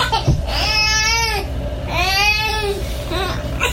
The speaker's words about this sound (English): All right, let's see what this cry means from baby